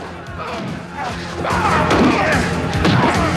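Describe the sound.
Thuds and crashing blows of fists in a prisoners' brawl on a prison factory floor. A dense, scuffling clatter swells louder about halfway through.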